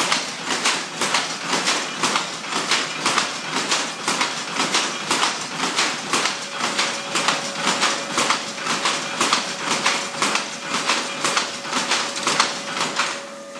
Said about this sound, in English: So he's just fired up the machines now. There's some belts spinning from the steel rods on the roof that are turning round. Now you're just firing one of the machines up now.